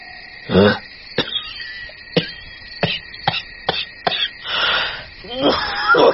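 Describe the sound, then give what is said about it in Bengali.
Violent, breathless coughing fit, a long string of sharp, harsh coughs with rasping, wheezy gasps between them, swelling into broader hacking bursts toward the end. “কথাটা বলেই দম ফাটা কাশি উঠল ওর, বুকটা ফাঁকা কলসির মতো বাজছে।”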